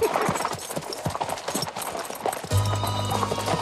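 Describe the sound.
Horses' hooves clip-clop in a loose, uneven rhythm as riders arrive in a town, moderately loud throughout; a low steady hum joins near the end.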